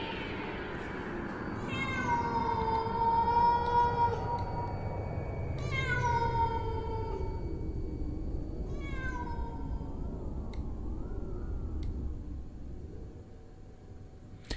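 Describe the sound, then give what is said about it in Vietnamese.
A cat meows mournfully at night, giving a few long, drawn-out, wavering cries over a soft, steady background hiss. “Trong đêm, mọi thứ cô tịch lắm, chỉ vọng lại có tiếng con mèo nó kêu, nghe ai oán não nùng.”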